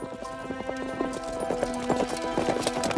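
Horses' hooves clip-clopping as a group rides frantically out of ancient Rome by night, a rapid continuous patter of hoofbeats layered over a sustained tonal drone.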